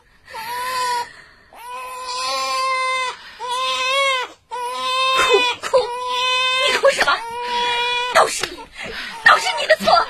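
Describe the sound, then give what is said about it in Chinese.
A child cries hard in a long series of wailing sobs, broken by gasping breaths, growing more ragged and uneven toward the end. “把孩子给我， 别哭。”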